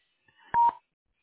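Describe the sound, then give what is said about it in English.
Voicemail recording tone, a single short steady beep sounding alone after a brief faint lead-in, then silence. “Please leave your name, number, and reason for calling at the tone”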